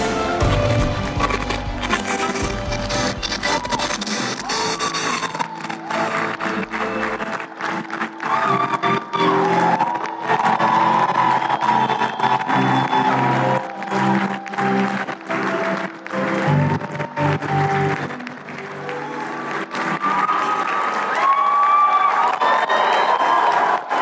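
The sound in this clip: Audience applause welcoming a speaker at a leadership conference: sustained, dense clapping mixed with crowd noise that continues loudly throughout.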